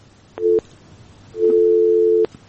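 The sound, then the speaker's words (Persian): A telephone busy tone after a dropped call: a short steady electronic tone, then a pause, then a longer burst of the same flat tone. “تماس از این هم قطع شد.”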